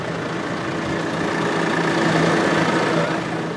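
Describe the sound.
Steady drone of a red tractor's engine running, a continuous mid-to-low hum with a faint harmonic whine that holds at an even loudness throughout, with no voices.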